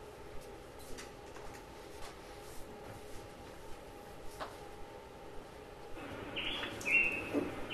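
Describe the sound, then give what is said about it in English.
Quetzal or flowerpiercer calls come through as brief, high chirps over a low, steady background hum, faint at first, then a small cluster of clearer calls near the end. “Looking for a few specialty birds. It's a quetzal, another flower piercer.”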